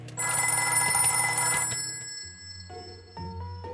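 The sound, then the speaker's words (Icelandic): A telephone bell ringing in a kitchen, a bright, rapid metallic trill sounding steadily for about two seconds before it stops. “En svo hringi síminn.”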